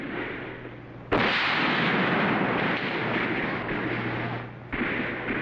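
Musket shots in a battle: two sharp, loud blasts, the first early and the second near the end, set against a continuous rough roar of battle noise with a low steady hum underneath.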